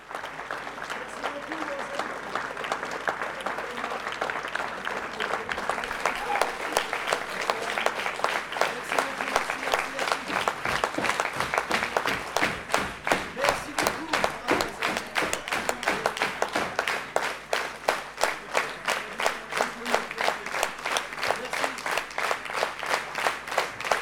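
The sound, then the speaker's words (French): A standing audience of about 200 people applauds a musician and his band after a concert. Dense, steady clapping fills the whole stretch, and individual claps become sharper and more distinct in the second half. “Public est debout, applaudir”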